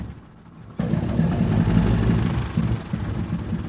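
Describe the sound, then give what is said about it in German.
Three nine-cylinder radial engines of 650 hp each on a Junkers aircraft, accelerating: a deep, loud roar that starts abruptly after a quiet moment, then holds as a dense, throbbing rumble with slight wavering. “Drei Neunzylinder-Sternmotoren mit je 650 PS beschleunigen auf sagenhafte 120 Stundenkilometer und dann geht's ab in die Luft.”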